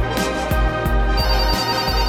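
A mobile phone ringtone plays alone: a loud, melodic electronic tune over a steady pulsing beat, with no voices.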